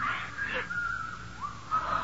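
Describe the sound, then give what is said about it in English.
Someone whistles in a thin, high tone, in a few short wavering phrases of moderate loudness, with no talking. “There's that whistling again.”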